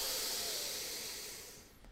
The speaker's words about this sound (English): We're going to breathe in through the nose and then sigh out the exhale. All right, three breaths in through the nose.